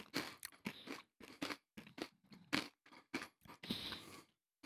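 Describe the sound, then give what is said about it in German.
Loud crunching of spicy Vulcano potato chips topped with lime, eaten in many sharp, irregular bites with short pauses between, and no talk. “Also, jetzt wir mal Vulcano probieren, da mit Limetten drauf.”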